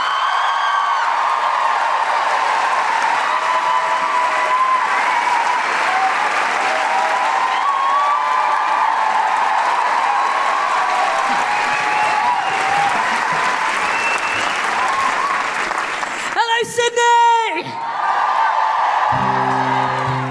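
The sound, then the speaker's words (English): Loud, sustained audience applause at a live show in Sydney as a folk singer is welcomed on stage. Dense clapping runs steadily for about sixteen seconds, with scattered whoops and cheers rising above it, before it briefly breaks off. “To play us out and to leave us feeling on a massive Guilty Feminist high, put your hands together and make incredible, welcoming Sydney woohooing Guilty Feminist noises for the incredible Grace Petrie.”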